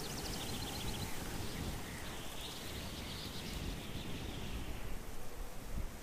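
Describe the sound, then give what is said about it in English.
Wind blows through trees in a quiet, steady rustling hiss with slight gusty swells and no clear breaks. “Boy, the wind in these trees, boy, I tell you.”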